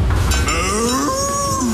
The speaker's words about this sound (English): When you hear Bessie the cow moo